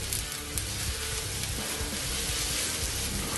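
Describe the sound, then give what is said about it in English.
Onions, ginger and garlic frying with cumin seeds in a pan as they are stirred, giving a steady, dense sizzle that holds evenly throughout, with no voices. “You want that ginger and garlic to cook nicely with the onions and the cumin seeds.”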